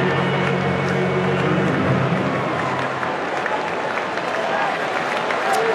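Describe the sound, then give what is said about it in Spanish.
Baseball fans roar at Yankee Stadium, stirring up and calling for a strikeout with a 2-2 count on the batter; a loud, steady crowd din holds from start to finish. “Se animan los fanáticos aquí en Yankee Stadium. Empiezan a pedir el ponche.”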